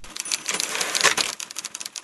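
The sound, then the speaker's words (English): Typewriters played as musical instruments by a typewriter orchestra at a live show: dense, rapid clattering keystrokes and clacks, loud and busy throughout, with no voices. “there's a group of grown-ups having fun with typewriters in a different way.”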